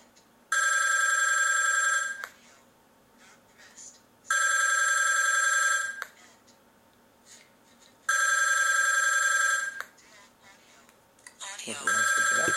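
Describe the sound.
A phone ringing on speakerphone during a call test: three long, bright electronic ring bursts, evenly spaced with quiet gaps between, and a short burst of other noise at the very end.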